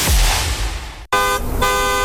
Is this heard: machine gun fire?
no